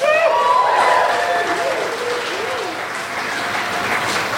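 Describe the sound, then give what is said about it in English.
Applause from a comedy show audience voting for the Frasier pitch, a dense, steady wash of clapping that holds at an even, fairly loud level for the whole stretch. “So, by applause, starting with Sean Jordan, Frasier.”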